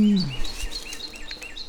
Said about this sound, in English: Lots of birds out here yapping today too.